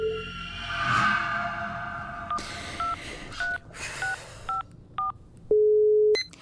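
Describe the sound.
A telephone is dialed: after a brief whoosh, six short keypad tones beep one after another at an even pace, followed by a longer steady tone.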